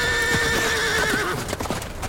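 Hooves clip-clop as horses are ridden away, several uneven hoof beats sounding under a loud, sustained whinny that slowly fades.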